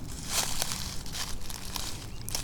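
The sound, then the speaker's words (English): Footsteps crunch and rustle over leaf-covered ground during a search for golf balls, a few crisp, irregular steps against a steady low rumble. “on the ground, probably covering up lots of golf balls. Probably golf balls from last year, but golf balls nonetheless.”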